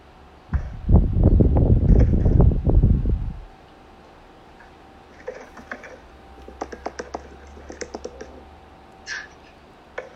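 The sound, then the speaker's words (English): Typing on a computer keyboard during a meeting: about three seconds of loud, dense key clatter, then a quieter stretch of scattered, sharp key clicks, with no voices. “I'm typing right now.”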